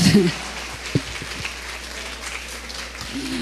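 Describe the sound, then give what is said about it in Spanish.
Applause from a church audience honouring the women of its ministry: a steady, dense patter of clapping that runs throughout, slightly louder at the start and end, with a voice briefly audible at the beginning. “Desen un aplauso a ustedes mismas.”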